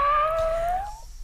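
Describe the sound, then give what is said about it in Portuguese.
A voice imitating a cat's meow: one drawn-out, tonal cry of about a second, fairly loud and held at a steady, slightly rising pitch before breaking off. “Manda um miado pra mim.”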